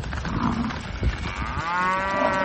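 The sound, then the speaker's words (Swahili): Cattle mooing, from cows that escaped while being loaded onto a truck and pushed into a salon in Nanyang, Henan: a hoarse, low moo over a dense, noisy background, ending in a drawn-out tonal bellow. “mkoa wa Henan, zinazowaonyesha ng'ombe hao wakisukumana kwenye mlango na kuingia kwenye saluni hiyo wakigonga vipande vingi vya samani, huku taharuki ikitanda.”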